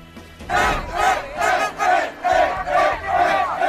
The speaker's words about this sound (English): Celebrations late into the night in Spain after winning the World Cup in extra time.